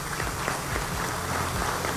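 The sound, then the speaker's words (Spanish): Crowd applause honours the young people and students of the UPT in Táchira: a dense, steady wash of clapping that holds at an even level for the whole stretch without a break. “Un aplauso para todos ellos y para todas ellas.”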